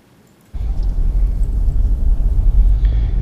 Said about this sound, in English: I am now driving down the worst road in Portland.